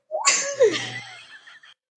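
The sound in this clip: A single sneeze during a tabletop dice game, a sudden breathy burst that trails into a softer exhale lasting over a second before cutting off.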